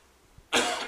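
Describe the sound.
A harsh cough from a scratchy throat bursts out loudly after a moment of near silence and stays rough and raspy to the end.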